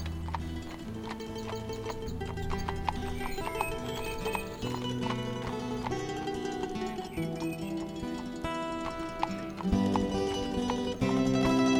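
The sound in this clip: Clip-clop of a horse's hooves while it is whipped: a fast, even run of many hoof strikes at steady loudness throughout, with no voices.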